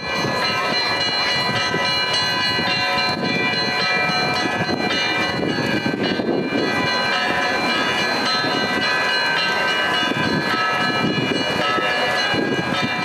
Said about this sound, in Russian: Крестный ход сопровождался колокольным звоном храмов, расположенных в центре города, и молитвенными песнопениями в честь Преснодевы.